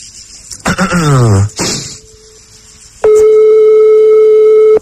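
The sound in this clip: A telephone tone sounds on a call: one steady, unbroken electronic hum starts partway through and holds loud to the end. A brief voice-like sound comes before it.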